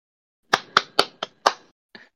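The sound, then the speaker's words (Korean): Hand claps ring out sharply on their own: five quick, slightly uneven claps, then a short pause and a final softer clap. “박수를 치셨네요.”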